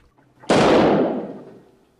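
A single gunshot fired through a house window: one sudden, loud, sharp crack with a broad noisy burst that decays over about a second into silence.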